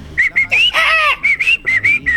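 Southern screamer calls: a series of loud, high, honking whistle-like notes in quick succession, broken by one longer, harmonically rich cry in the middle of the run.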